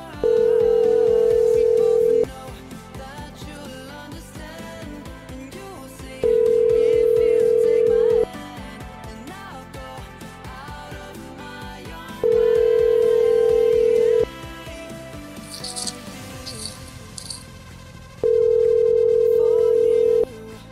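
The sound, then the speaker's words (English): Voicemail tones on a phone line: four long, steady, even-pitched beeps, each about two seconds long, repeating roughly every six seconds over a softer continuous background. “a lot of people have got this as their voicemail.”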